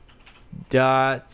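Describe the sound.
Typing on a computer keyboard, a few light key taps followed by a short burst of a voice.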